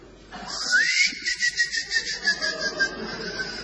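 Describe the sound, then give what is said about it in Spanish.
Cricket chirping in a steady rhythm, a regular run of short, high-pitched pulses, preceded by a brief rising whistle-like tone. “Es un grillo, Un grillo, así.”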